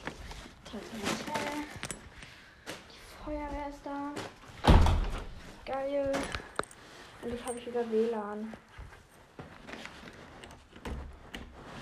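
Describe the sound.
A door being unlocked and opened on returning from shopping: one sharp, loud thunk stands out among softer clicks and rustling, with a person talking before and after.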